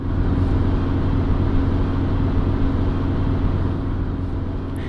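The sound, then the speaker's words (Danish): Car driving fast on the way to a shopping centre: a steady, loud, low rumble of engine and road noise that continues without a break, with no talk. “mens Hanne kører som død og helvede på vej til shoppingcentret”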